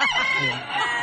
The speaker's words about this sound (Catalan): Porta un gall a les mans. Per fer caldo després? O... Un gall viu, eh? Sí, ben viu